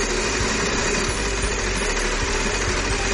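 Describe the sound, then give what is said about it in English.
A game show prize wheel spins with a steady, rapid mechanical ticking and whirring that runs evenly throughout, with no voices over it. “Spin that wheel.”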